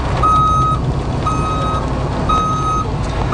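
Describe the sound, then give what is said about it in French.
Truck reversing beeps at a construction site: three steady, evenly spaced high-pitched beeps, each about half a second long, sounding over a continuous low engine rumble. “Et ce sont des bruits que vous allez entendre au cours des prochaines semaines parce que la saison de construction, elle est lancée à Gatineau.”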